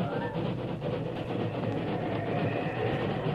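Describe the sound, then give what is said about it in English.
A lumbering freight train slows on the rails at a switch outside a city, with snow swirling about the wheels. A continuous, fairly quiet rumble and rattle runs steadily throughout. “When the lumbering freight slowed at the switch outside the city, Jack Jeffries”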